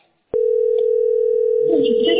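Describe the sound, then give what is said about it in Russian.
Steady telephone tone after a call cuts off while someone tries to get through, beginning abruptly after a moment of silence and holding at an even mid pitch, with some rustling noise toward the end. “вот звонок перерывается.”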